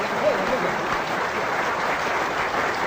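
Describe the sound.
Steady, dense audience applause during a comic stage act, with a continuous even wash of clapping throughout.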